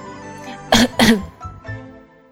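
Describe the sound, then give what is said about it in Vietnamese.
Two harsh, dry coughs from someone who has choked on tea, loud and closely spaced, followed by a few quieter throaty sounds. “Thiên Tôn bị sặc nước trà đến ho khan, cười khan mà gật đầu”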